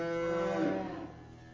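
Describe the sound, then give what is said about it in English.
A loose cow, being chased, gives one long, low, harmonic moo that holds steady and loud before easing off and trailing away quietly at the end. “There's a cow. You can hear it.”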